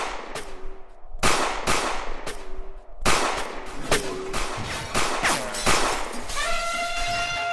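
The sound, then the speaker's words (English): Sharp gunshots ring out, a warning shot fired from a gun, heard as a rapid series of loud, cracking bangs with short ringing tails. A sustained ringing tone follows near the end. “Consider that your warning shot. Got him. You brought your gun! Of course I brought my gun.”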